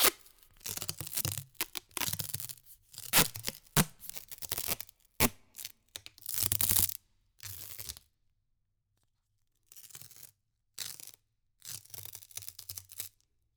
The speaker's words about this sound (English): I've got another idea. Duct tape. Here we go.